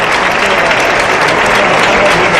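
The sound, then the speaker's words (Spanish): Dense audience applause at a bullfight, loud and continuous from start to finish with no break in the clapping. “Así lo siguen. Aplausos.”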